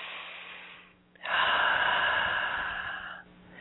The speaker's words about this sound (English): Nice deep breath.